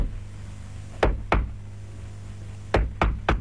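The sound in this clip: Knocking on a house door in the early-morning hours: two sharp knocks, a pause, then three more in quick succession. The knocks ring out loudly over a low, steady hum.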